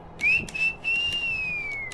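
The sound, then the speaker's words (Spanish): A person gives a quiet, sustained whistle at a card table, a single clear high tone that lifts slightly and then glides slowly down, with a few faint clicks around it. “dejó escapar un quedo silbido.”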